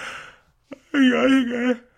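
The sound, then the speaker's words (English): A drawn-out human yawn: a brief soft click, a short pause, then a long, low voiced groan that holds for about a second and fades. “wrapping it up as I am yawning through this podcast”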